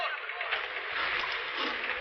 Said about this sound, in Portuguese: Os outros fiquem preparados para remar quando eu der a ordem. E uma remada lenta. Poupem as forças.